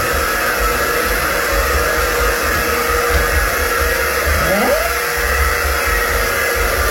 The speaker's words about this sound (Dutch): Het geluid van mijn vrouw die staat te feunen 's morgens.